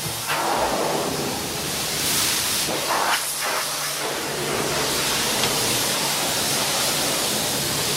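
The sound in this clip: Water sprays in a steady, loud hiss while winery yard equipment is washed down after grape destemming. The rushing spray continues throughout, swelling and easing slightly at moments.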